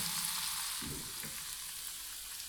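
An egg sizzles in a frying pan as its white nearly sets around the yolk: a steady, bright crackling hiss that holds an even level throughout, with no voices.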